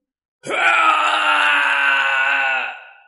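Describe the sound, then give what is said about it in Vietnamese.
A ghost's mournful wailing cry, one long sustained moan that rises sharply, then holds a steady, rich tone for about two seconds before fading, loud and alone against silence. “Tiếng kêu thê lương truyền khắp thiên địa.”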